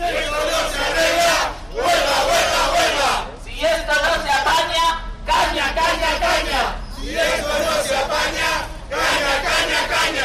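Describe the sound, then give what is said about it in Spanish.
About fifty Correos postal workers protest in the street, a crowd chanting loudly in repeated rhythmic bursts separated by brief pauses, shouting demands against the dismantling of the public postal service. “medio centenar de trabajadores de Correos han vuelto también a salir a la calle exigiendo la paralización del desmantelamiento de Correos y el abandono del servicio público postal, así como la reversión del actual modelo de gestión. Así sonaban.”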